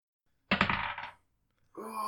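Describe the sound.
Dice clatter onto a table for a tabletop role-playing game check. A single sharp rattling burst follows silence and settles within about a second, and then a voice begins speaking.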